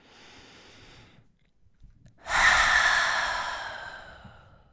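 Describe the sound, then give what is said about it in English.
A deep inhale followed by a long open-mouthed exhale during a gentle yoga flow class. The soft breath in is followed by a brief pause, then a much louder breathy release that fades gradually. “Take a deep inhalation, open the mouth, and release.”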